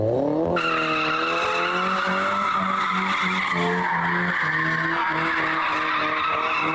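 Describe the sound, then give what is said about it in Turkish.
Tires screech loudly as cars drift in Ankara, a continuous high skid squeal over engine roar that starts abruptly and holds for several seconds. No voices are heard. “Ankara'da araçlarıyla drift atan 11 kişi yakalandı.”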